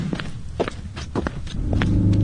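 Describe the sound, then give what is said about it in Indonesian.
Footsteps of someone walking on foot, a few firm, evenly paced steps with scuffing between them, while a low rumble grows steadily louder toward the end. “Jalan kaki saja, Ba. Ndak jauh-jauh tu.”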